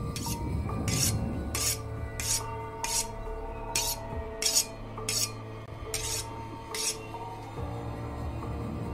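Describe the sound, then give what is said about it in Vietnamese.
A knife taps and scrapes on tables, chairs and iron bars in a warehouse. Many sharp metallic rasps fall in an uneven rhythm over a low, droning backdrop. “thằng Nam đi dọc theo những thùng hàng, gõ gõ con dao lên mấy cái bàn cái ghế, mấy thanh sắt ở trong kho. Âm thanh vô cùng ghê rợn.”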